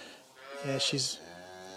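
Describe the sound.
A mature cow that has had several calves and is full of milk lets out one short, low moo, rising briefly out of quiet background.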